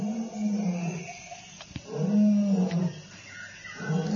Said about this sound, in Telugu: అప్పుడే ఆ సింహం చేసే గర్జనలు బాధ వినిపించింది ఆండ్రోక్లిస్కి.